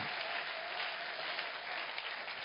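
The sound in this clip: A church audience applauding: an even wash of clapping that stays steady and fairly loud throughout without a break.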